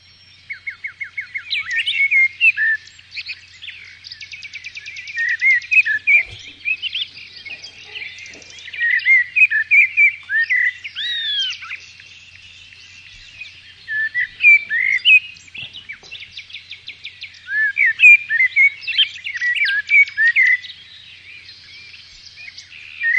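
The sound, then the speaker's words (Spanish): A common blackbird sings alone in many short, varied phrases of whistled and twittering notes, each separated by brief pauses, with clear, fairly high-pitched calls repeating throughout. “Pues se trataba de un mirlo, como bien decía Diego”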